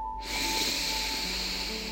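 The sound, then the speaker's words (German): A slow, deep inhale through the nose during a guided relaxation exercise, heard as a soft, steady airy hiss lasting about two seconds over faint sustained tones. “Und dann atme mal erstmal tief durch die Nase ein”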